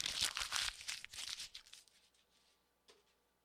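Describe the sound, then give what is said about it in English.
Paper being crumpled up by hand makes quiet crackling, crinkling bursts for under two seconds. The crackles thin out into a faint rustle, and one small crackle comes near the end. “that's me crumpling up a piece of paper, because all of those plans are now in the garbage can that sits next to my desk here, Studio L, in the Huddle Up Podcast studio.”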